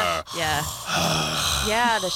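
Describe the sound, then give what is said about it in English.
A voice imitates a zombie, producing strained, throaty groans mixed with breathy exhalations in two drawn-out bursts. “let's get some zombie noises going on. Anybody? That's my best one. I feel like they just grunt more than anything. Don't they just walk around? They do that, but there's a little bit of a breathing they do.”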